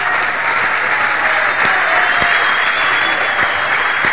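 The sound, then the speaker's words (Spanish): Applause from a church audience, a dense steady wash of clapping across the whole clip with a few sharper claps standing out, fairly loud and without speech. “No, démosle un aplauso fuerte al Señor.”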